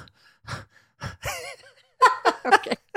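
A person imitates a dramatic gasp with short breathy intakes and a wavering, voiced catch of breath. A quick run of several bursts of laughter follows.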